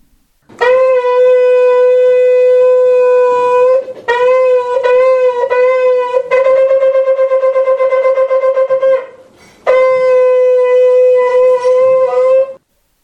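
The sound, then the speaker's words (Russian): A ram's horn shofar is blown loudly: a long sustained blast, then broken pulsing notes, a rapid fluttering run, and after a short pause a final long held call. All are on one bright, brassy pitch. “раздается звук шофара”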